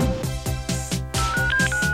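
A car phone ringing, loud rapid electronic ring pulses repeating in a quick even pattern, joined in the second half by a sustained higher tone.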